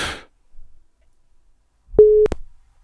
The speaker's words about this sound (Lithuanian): Nu va, telefonas jau pypsi.